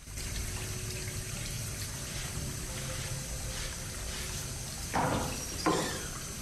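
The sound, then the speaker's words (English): Water runs from a tap into a bathroom wash basin as a steady, broad hiss, with two short, louder splashing bursts near the end. “The man at the wash basin turns off the tap and then speaks to Sean.”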